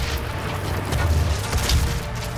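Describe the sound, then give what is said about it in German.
Explosion in the video game DOOM: low rumbling booms surge out of a dense, noisy wash of game sound, with two heavier swells about a second apart. “Aha, ich hab mich selbst in die Luft gesprengt.”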